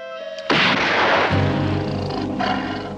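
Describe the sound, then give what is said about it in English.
A gunshot fired into the air bursts out sharply and rings into a long decaying roar. A softer second report follows later, all over a sustained tonal background. “Firing into the air.”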